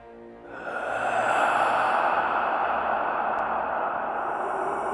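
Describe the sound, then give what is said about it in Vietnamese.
An eerie breath sounds in the dark, a long, hollow, airy exhale that swells in after a short moment and then holds steady and drawn out, with no voices. “Vẳng trong bóng tối vang lên một tiếng thở rợn người.”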